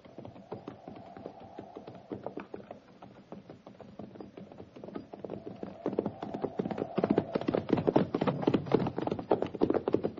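Horses' hooves clip-clop as a cavalry company rides on, with many quick, uneven hoofbeats that keep a loose rhythm and grow louder and denser in the second half.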